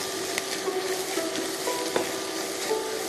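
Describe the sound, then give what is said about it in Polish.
Food fries in a pan with a continuous crackling sizzle, scattered small pops and occasional soft scrapes from stirring. “Teraz już sobie tak przesmażamy.”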